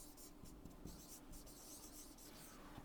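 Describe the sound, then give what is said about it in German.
Faint, scratchy strokes of a green pen writing on a board, a steady run of many short rubbing and squeaking marks with no talk over them. “Ich hoffe, ich schreibe richtig.”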